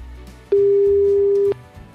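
A telephone ringback tone sounds as a call is placed to a listener during a live radio contest: one loud, steady, mid-pitched tone lasting about a second, with faint background noise before and after.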